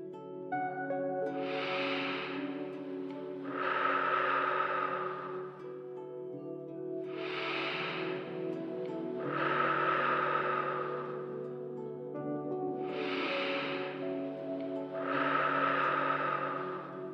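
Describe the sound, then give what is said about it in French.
Three slow, deep breaths are drawn as part of an essential-oil smelling exercise. Each breath comes as two soft, airy swells, evenly spaced, over a faint steady hum, with no talking. “Refermez le flacon et accordez-vous trois grandes respirations profondes afin de laisser votre corps vous parler.”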